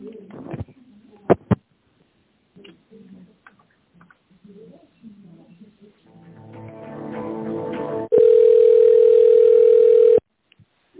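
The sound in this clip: A telephone ringback tone sounds while a call is being transferred: one steady buzzing tone lasting about two seconds near the end, after faint murmured voices and a few clicks.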